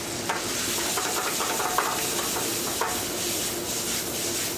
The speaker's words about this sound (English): And because we have the wine and we have all the oil in there already, just simmering with the seasoning, it makes a little gravy.